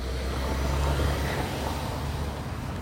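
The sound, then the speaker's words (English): A car driving down a side street makes a faint, low rumble of engine and road noise that stays even throughout, with no voices. “stupid car driving down the side street.”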